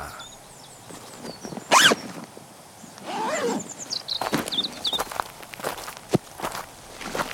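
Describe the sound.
Backpacks being unzipped and rummaged through in a forest: a sharp zip, then continuous rustling and crunching of fabric and gear, with scattered clicks and no voices.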